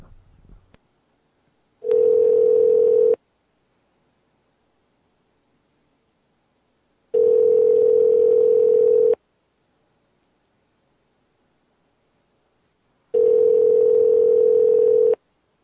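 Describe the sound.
Telephone ringing tone after dialing: three steady tones, each about two seconds long, separated by silences of roughly four seconds, after a brief rustle at the start.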